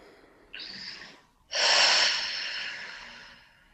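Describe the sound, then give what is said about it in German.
Deep breathing during a guided relaxation: a shorter, airy breath in is followed after a pause by a longer, louder breath out that gradually fades. “Tief ein- und ausatmen.”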